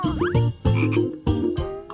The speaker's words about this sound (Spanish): ¡Es el de una rana!